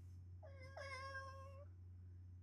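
A cat gives two quick, overlapping meows, clear and tonal, over a steady low hum that runs through the whole clip.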